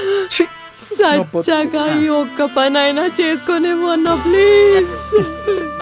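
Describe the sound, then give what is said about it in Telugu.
A woman wails loudly and theatrically over a body at a mock funeral in a Telugu comedy sketch. Her sobbing cries come in uneven bursts, then a long sustained high wail rises near the end. “ఎంత దరిద్రంగా ఏడుతుంది. ఎందుకు ఊరికి ఏడుస్తున్నారు?”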